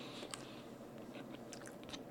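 Faint chewing from a person eating. A few soft crunchy clicks and mouth sounds sit over a steady low background noise, with no talk.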